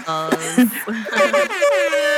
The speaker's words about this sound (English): It needed claps and air horns.